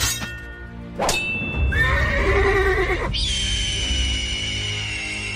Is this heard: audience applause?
no